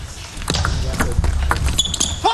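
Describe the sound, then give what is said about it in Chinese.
Table tennis ball struck back and forth during a match, a serve met with a short chopped return. A few sharp, evenly spaced clicks sound roughly every half second. “这个球摆短摆得非常好，剁住了护上孙福的这个发球，还是而且也盯到了他的正所谓短球。”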